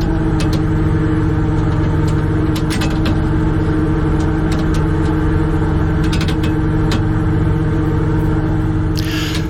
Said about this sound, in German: Wir sind schon mitten im Wattenmeer auf dem Krabbenkutter vor der Hallig Langeness und jetzt werden die Netze ausgebracht.